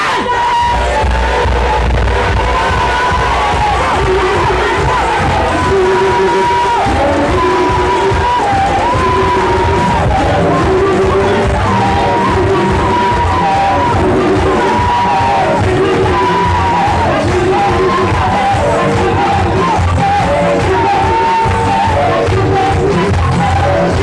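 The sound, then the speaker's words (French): A large crowd cheers, shouts and acclaims loudly and without pause, with yells and whoops rising out of a dense, continuous roar of voices. “Et puis vous êtes acclamé, acclamé.”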